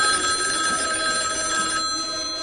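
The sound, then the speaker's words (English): A telephone rings steadily in a scene from the 1974 film Black Christmas, a continuous bright, trilling tone at moderate level throughout. “And this track is a clip from the movie where some girls get a creepy phone call.”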